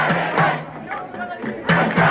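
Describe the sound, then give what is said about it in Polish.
A crowd of protesters shouting in the streets of Sudan. Loud, repeated bursts of massed voices rise and fall in a rough rhythm, with brief quieter gaps between the surges. “Sudańczycy, którzy wiązali wielkie nadzieje z demokracją, tłumnie wyszli na ulice, a w Chartumie czy Omdurmanie budowali nawet uliczne barykady.”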